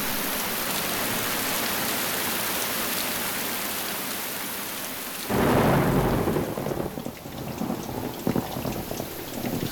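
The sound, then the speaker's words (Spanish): Steady, heavy rain hisses evenly during a storm, then a loud, deep roll of thunder breaks in partway through and rumbles on under the downpour. “Lluvia otra vez, no, por favor.”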